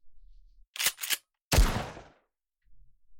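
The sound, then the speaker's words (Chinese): Gunshots fired out in the wilderness: two quick, sharp cracks in close succession, then a louder blast with a booming low tail that fades away, followed by quiet. “你干什么啊？怎么又开枪啊？”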